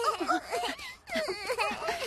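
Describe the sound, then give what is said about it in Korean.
A young child wails and whimpers in an animated scene after getting hurt, in two strained, wavering bursts of crying split by a brief catch of breath, fairly faint overall. “많이 아파? 이런 걸로 울면 안 돼, 루카.”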